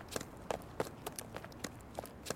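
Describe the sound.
Quick footsteps of someone running away, many light, slightly uneven steps tapping in a steady fast rhythm, faint and alone with no talk.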